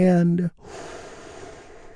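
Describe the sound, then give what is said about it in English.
Someone takes a deep inhaled breath during a guided relaxation exercise. A short spoken phrase comes first, then a soft, airy rush of breath lasts over a second. “And we do that by taking a big, deep, healing breath. Here we go, all together,”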